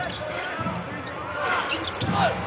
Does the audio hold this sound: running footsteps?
no